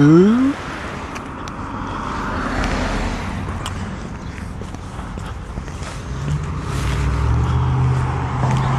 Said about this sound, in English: A lot of traffic here this morning. Probably because there's road construction, and so there's detours everywhere.